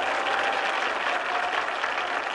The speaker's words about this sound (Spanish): Los indios que abarrotan la gran carpa se ponen en pie y aplauden.